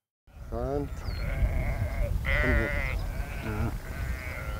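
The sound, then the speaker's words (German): A flock of about 630 sheep bleats on the heath at Morsum Cliff on Sylt. A few wavering, drawn-out bleats rise above a steady low rumble of the moving herd. “Die 630 Schafe sorgen hier für eine ganz natürliche Landschaftspflege.”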